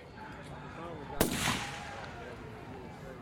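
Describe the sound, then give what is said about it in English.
A single gunshot sound effect: one sharp, loud crack with a short decaying tail, set against a quiet background with faint voices murmuring underneath. “I heard a shot. So fucking odd, these sound effects right now, you guys. I felt like I was there.”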